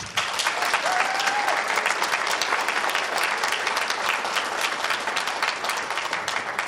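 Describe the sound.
Applause from a live audience welcoming a rabbi as a guest: dense, loud, continuous clapping that holds steady throughout without a break.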